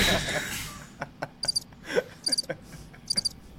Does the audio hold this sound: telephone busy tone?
no

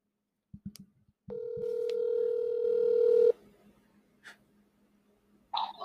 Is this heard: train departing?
no

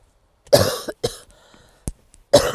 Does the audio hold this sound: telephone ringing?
no

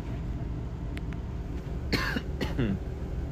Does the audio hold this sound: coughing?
yes

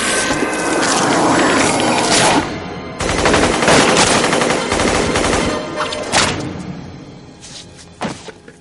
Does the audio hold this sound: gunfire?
yes

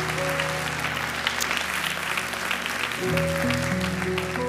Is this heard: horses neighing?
no

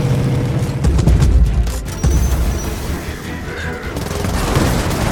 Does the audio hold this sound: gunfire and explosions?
yes

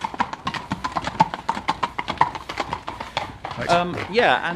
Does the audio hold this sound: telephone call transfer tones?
no

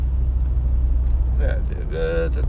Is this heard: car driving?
yes

